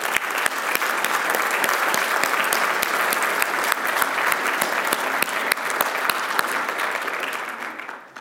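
Applause from an audience welcoming a 101-year-old woman: dense, sustained clapping that holds steady and then tapers off at the very end.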